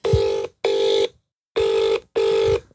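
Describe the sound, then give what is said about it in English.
Ringback tone of a phone call to a friend in London: two double rings, each a pair of short, steady buzzing tones split by a brief gap, with a longer pause between the pairs. “We're phoning a friend.”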